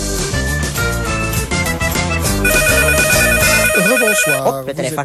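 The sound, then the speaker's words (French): A telephone rings under dense, loud music, its sustained electronic tones standing out midway before the music shifts and fades toward the end. “le téléphone”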